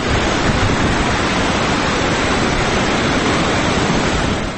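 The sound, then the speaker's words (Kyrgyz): Rushing water of the Ala-Mudun river, which tumbles down from green mountains at a popular weekend recreation spot. It is a loud, steady roar that holds without pause or change throughout. “Бул жайды жашыл тоолордон сырткары шаркырап аккан Ала Мүдүн дайрасы ого өтөр ажарын ачып турат.”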